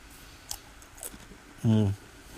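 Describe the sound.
Chewing of a lightly salted, crunchy cracker: a few sharp, crisp crunches spaced apart over faint background noise, followed by a short, hummed voice sound.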